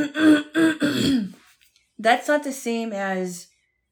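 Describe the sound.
Throat clearing comes as a few rough, rasping bursts, followed by a voice speaking.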